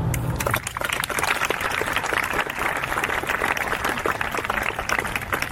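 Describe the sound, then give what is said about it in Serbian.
Applause from the audience opening the thirteenth Beldocs festival in Belgrade, dedicated to guests kept away by the COVID-19 pandemic; dense, steady clapping holds at an even loudness throughout. “Ja bih hteo da otvorimo festival jednim aplauzom za sve goste koji nisu mogli da dođu zbog pandemije COVID-19.”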